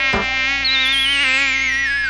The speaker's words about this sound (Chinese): 有蚊子！ 嘘，别吵别人睡觉。